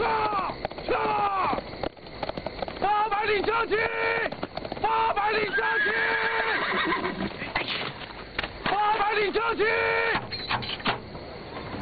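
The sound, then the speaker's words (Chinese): Horses whinny again and again over a clatter of hooves in a Qing-dynasty period setting. The neighs are loud and many, and the sound runs continuously across the whole span. “听，马蹄声。”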